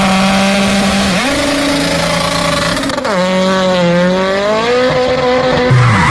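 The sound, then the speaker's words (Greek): Car tire squealing and skidding on the road after a tire bursts, over a loud, strained engine whose pitch sweeps up and down in waves. The harsh noise is continuous, with no separate burst clearly standing out. “Αμάν, πάει το λάστιχο, πάει και η ζάντα στη μέση του δρόμου.”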